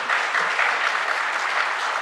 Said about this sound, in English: I don't mind people clapping and cheering